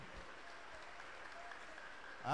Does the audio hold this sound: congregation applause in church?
yes